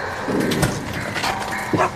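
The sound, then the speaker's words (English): A black dog barks a few times. The barks are short, rough and fairly loud, with a slight whimpering edge, over steady background noise. “He's one of our better black dogs.”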